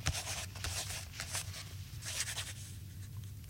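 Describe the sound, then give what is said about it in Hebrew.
A pen writing a number: quiet, scratchy strokes in short, irregular bursts against a faint low hum. “יש מישהו? אני כותב מספר.”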